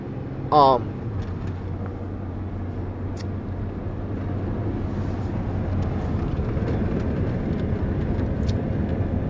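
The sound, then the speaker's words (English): A car drives, heard from inside the cabin, with a steady low road rumble throughout and a brief high chirp near the start. “Sorry, I'm driving, and I know I'm not supposed to be doing this while I'm driving, but I just had to speak on this.”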